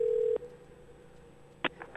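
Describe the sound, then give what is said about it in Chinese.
A telephone is dialed to place a call: a steady dial tone cuts off, then after a quiet pause a few short keypad beeps follow, with the first one the loudest. “我电话拄只有甲留起来，我来甲卡一下，互大家听看咧。”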